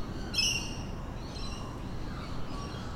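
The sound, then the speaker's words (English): Bird calls over a faint low hum of back-veranda ambience in a leafy suburb of Sydney, with one clearer, sharper call near the start followed by a few softer, thinner calls. “This is what it sounds like on the back veranda of my parents' house in a leafy suburb of Sydney where I grew up.”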